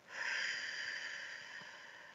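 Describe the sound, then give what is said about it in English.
A slow breath during a guided breathing exercise, drawn in through the nose and let out through the mouth: one long, soft, airy rush that stays faint and steady for about two seconds, with no voices. “Let's take another breath in through your nose, out through your mouth.”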